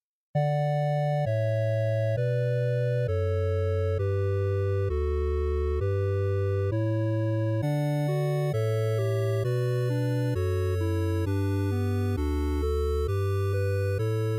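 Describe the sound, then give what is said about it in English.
Bright, buzzy 8-bit chiptune music in classic NES video game style, played on 8-bit synths: a steadily stepping bass line changes note about every 0.7 seconds beneath sustained square-wave melody tones, playing continuously with no voices. “that distinctive kind of electronic music that sounds like it came straight from a classic video game. Perhaps in the old Nintendo Entertainment System era.”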